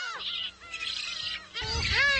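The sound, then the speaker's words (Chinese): Shrill, rapid calls of black-faced spoonbill chicks clamouring for food on an island nest in early summer, overlapping squeaky cries rising and falling in quick bursts with no pause, dense and fairly loud throughout. “雏鸟们为争抢食物开始了吵闹。”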